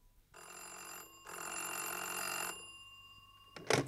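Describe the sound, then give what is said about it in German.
A telephone bell rings in a studio scene of a 1959 radio drama, in two bursts, a short ring and then a longer one, followed after a pause by a brief, sharp clatter. “Pobodonossikow nicht persönlich, sondern ruft im Studio den Regisseur an.”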